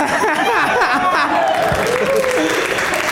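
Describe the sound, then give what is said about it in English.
An audience cheers and applauds at a live event as a can of LaCroix sparkling water meets its demise. Loud, continuous clapping mixes with excited shouts and voices throughout. “More people cheered for the demise of LaCroix than anything else tonight.”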